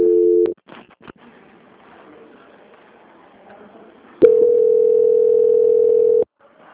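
Telephone line tones during a call transfer: a short steady tone at the start, a few clicks over a faint line hiss, then a long steady tone of about two seconds that cuts off abruptly.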